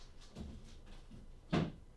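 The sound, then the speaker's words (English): A mostly empty garbage can being knocked over: a few soft knocks and shuffles, then one sharper hollow clatter, all fairly quiet. “I knocked over the garbage can.”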